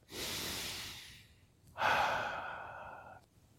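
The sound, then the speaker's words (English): Two slow, deep breaths taken during a calming relaxation exercise: a long airy breath, a brief pause, then a second, louder one with a soft voiced hum, both heard alone without speech. “We'll take a few deep breaths. Just to become calm and centered.”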